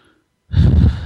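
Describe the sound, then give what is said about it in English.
A single slow, deep breath, drawn as a calming breath during a panic attack; it is loud and breathy, lasts about half a second, and follows near silence, with no talk. “So just breathe.”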